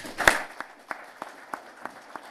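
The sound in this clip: An audience applauds after a talk with faint claps at an even, steady rhythm.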